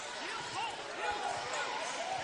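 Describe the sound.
A basketball is dribbled during a Blue Devils game, several thuds bouncing under a commentator's continuous play-by-play voice.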